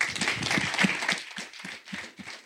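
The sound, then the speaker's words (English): Audience applause welcoming a speaker, soft dense clapping that thins out into scattered individual claps toward the end. “Please put your hands together and help me welcome Ashish Atreja.”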